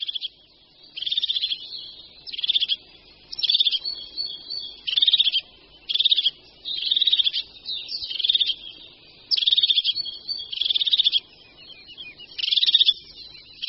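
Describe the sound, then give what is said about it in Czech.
Crested tit calls given in excitement: many short, high-pitched trilling bursts repeat at a steady, fairly even rhythm, each a brief buzzy chatter, with no voices. “se parukářky ozývají hodně často a téměř vždy ve spojitosti s nějakým vzrušením”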